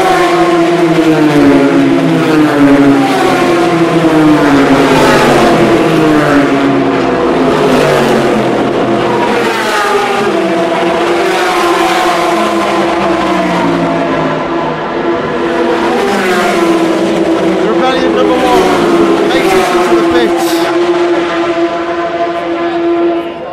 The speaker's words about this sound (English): Gibson engine LMB2 sounding very much the same.